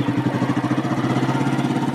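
A motorcycle engine runs with a steady, throbbing low rumble, pulsing evenly and fairly loud throughout, with no talk over it.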